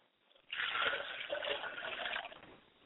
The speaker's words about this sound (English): I'm going to wash my hands and face before I proceed on.